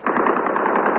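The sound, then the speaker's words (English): Gunfire from Palestinian guerrillas firing in celebration in Beirut's port area during an evacuation, a dense, unbroken crackle of rapid shots lasting the whole second. “The sound you can hear isn't a gun battle, but the Palestinian guerrillas celebrating the evacuation of some of the first wave of guerrillas down in the port area of Beirut.”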